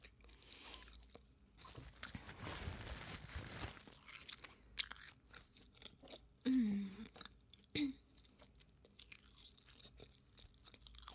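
Someone chews and crunches food while eating a meal, quiet and intermittent, with a couple of short vocal sounds in between.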